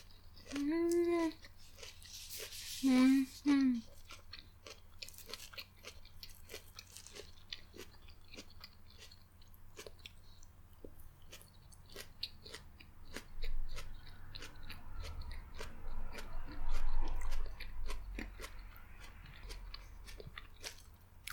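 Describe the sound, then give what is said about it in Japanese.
Crisp crunching of shredded cabbage being chewed from a pork cutlet rice bowl, with many small crunches repeating steadily; a voice sounds briefly near the start. “カツ丼でーす。いただきまーす。まずは、キャベツからね、食べなきゃいけない。”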